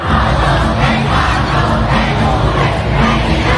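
Dense, loud roar of a large crowd outside a stadium during a concert. The noise holds steady throughout, with faint swells of cheering and shouting.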